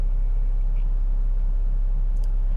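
A car being driven makes a steady, low engine and road rumble with a constant deep hum and no talk, holding at an even level throughout.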